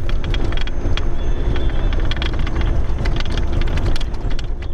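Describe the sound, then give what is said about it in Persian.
Humvee armored vehicles of Afghan forces drive toward Tarin Kot, a continuous loud low rumble laced with many sharp rattling clicks. “این صدای زره پاشهای حاموی است که نیروهای افغان آن را به شهر ترینکوت، مناطقی که تازه از وجود طالبان پاکسازی شدند، انتقال می دهند.”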